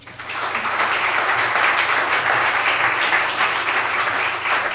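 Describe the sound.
Audience applause welcomes a speaker to the front of a church, a steady, dense wash of clapping that holds at an even loudness for the whole stretch with no voices over it.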